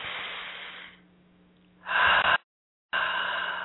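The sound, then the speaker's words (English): Deep breaths taken during a guided relaxation exercise: airy, hissing breaths with no talk. A softer breath fades out, a louder one cuts off abruptly, and after a short silence another breath begins. “Nice deep breath again.”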